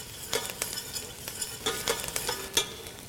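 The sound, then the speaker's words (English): Onions cooking in a pot for minestrone soup after about ten minutes, turning translucent: a soft, steady sizzle broken by irregular scraping and clicking as a utensil stirs them, fairly quiet with no voices. “So we've been cooking these onions for about 10 minutes, and they're beginning to get translucent.”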